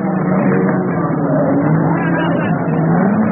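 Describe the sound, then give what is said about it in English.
Race car engines roar at an endurance motor race such as Le Mans or the Daytona 24 Hour, a loud, dense and steady drone with wavering engine tones throughout. “Listen to the sound of Le Mans. The drama of the Daytona 24 Hour.”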